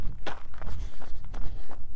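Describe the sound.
Footsteps of people out on a training run: a few soft, quick thuds and scuffs over a steady low rumble, with no voices.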